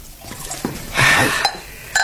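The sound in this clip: Plum brandy is poured into a cup in a short liquid stream lasting about half a second, with light handling knocks before and after it and no clear talk.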